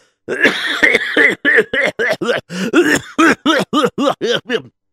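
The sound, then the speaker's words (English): Coughing fit from someone who has just choked on a drink: many rapid, voiced, harsh coughs come in a steady, chopped run, loud and close together, with no talk between them. “You see, pardon me, excuse me. I almost choked on my drink over here.”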